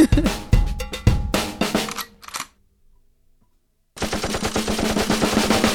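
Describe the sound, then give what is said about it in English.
A machine gun is locked and loaded with sharp metallic clicks and clacks. After a short silence comes a rapid, steady run of loud, crisp repeated hits. “Machine gun. Wow. Machine gun. Now, is that a real machine gun being locked and loaded?”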